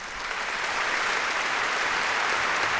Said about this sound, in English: To wait for the audience to quiet down. They go a little crazy if you try to talk over them.